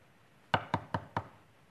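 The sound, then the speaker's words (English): Four sharp knocks on a door, evenly spaced and quick, demonstrating a door-to-door evangelism knock. Each rap is crisp and alone, with nothing else heard. “Do you know there are two different ways to knock on a door?”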